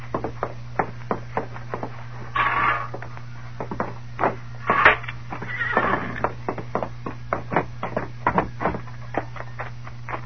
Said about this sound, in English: Look at the horse that youngster rode from Mud Flats.